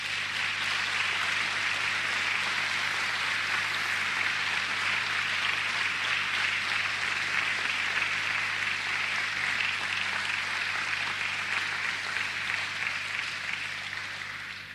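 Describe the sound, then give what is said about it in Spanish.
Congregation applause in a church: dense, steady clapping that holds at an even level for the whole stretch and tapers slightly at the very end, with no voices over it. “Dele un aplauso al Señor.”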